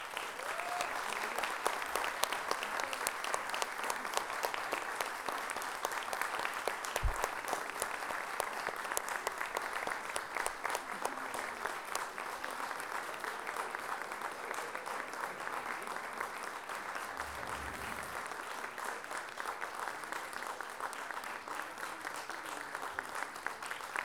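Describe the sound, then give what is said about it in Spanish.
Sustained applause from a live audience welcoming a band on stage, a dense, even wash of many clapping hands that holds steady and loud for the full stretch, with faint low thumps now and then. “quiero que le den el más cariñoso y fuerte los aplausos que puedan, a esta agrupación que todos admiramos y queremos.”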